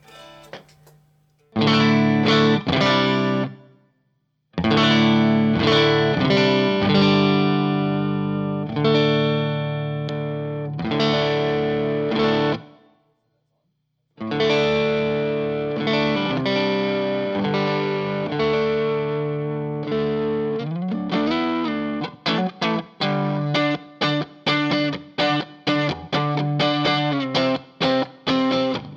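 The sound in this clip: Clean tone from a tonally beefy electric guitar played through a Pettyjohn Chime MK II pedal: sustained ringing chords separated by brief silences, then a quicker stretch of picked notes and short strums near the end, loud and without talk.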